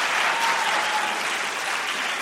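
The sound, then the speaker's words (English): Audience applause after a point in an education debate about Common Core reading standards: a dense, steady wash of many hands clapping that holds at an even, fairly loud level throughout, with no speech. “He's wisely letting the applause die down before he speaks.”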